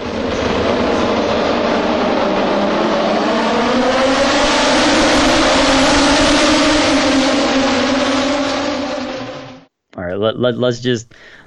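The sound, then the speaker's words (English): Triumph three-cylinder motorcycle engine: a loud, sustained roar whose pitch slowly climbs, then a sudden cutoff followed by a few quick, sharp revs. “The friggin' three-cylinder Triumph sounds amazing.”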